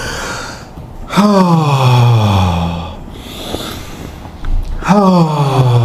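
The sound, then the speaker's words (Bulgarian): Deep breaths in and out during a guided breathing exercise, with two loud voiced exhales that fall in pitch like heavy sighs and softer breathy air between them. “Хайде сега три дълбоки вдишване и издишване.”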